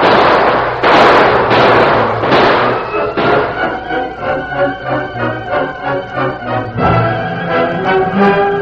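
Gunfire in a western-style shootout: a few loud, sharp bursts in quick succession, then music takes over with a pulsing, tonal pattern.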